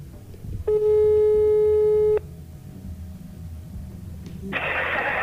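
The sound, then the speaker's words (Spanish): A telephone ringback tone sounds as a call is placed, one steady, buzzy ring of about a second and a half. Quiet line hiss follows, then a sudden loud burst of noise at the end. “A ver si conseguimos que nos coja el teléfono.”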